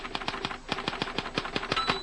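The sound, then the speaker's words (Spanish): A typewriter clacks through many rapid, sharp keystrokes in an uneven rhythm, loud and alone, with no voices. “esa máquina de escribir”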